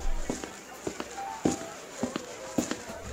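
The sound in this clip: Footsteps cross a room at a social gathering, a steady, evenly spaced series of about five or six soft thuds over a continuous background hum.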